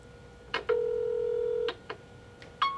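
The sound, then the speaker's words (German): Answering machine tones before a recorded message: a click, then a steady mid-pitched beep lasting about a second, followed by further clicks and a brief higher tone at the end. No voices are heard. “Sie hören eine Ansage auf Ihrem Anrufbeantworter.”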